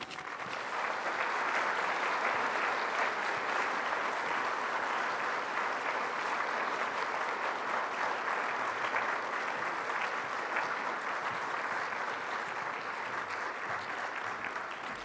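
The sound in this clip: Audience applause greets a lecturer at an evening forum lecture in Nebraska. The clapping is dense and even, holding at a steady level for about fifteen seconds without a break.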